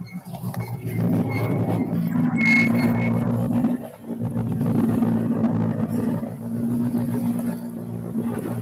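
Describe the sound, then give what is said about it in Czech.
Engine roar of a factory Škoda rally car approaching the finish of a special stage, a loud sustained drone that dips briefly midway, then builds again and holds. “Tak už se nám sem blíží další tovární škodovka Fira Nordgrena.”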